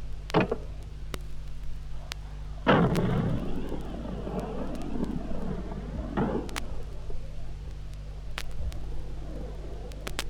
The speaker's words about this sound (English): The M40 A1 106mm recoilless rifle.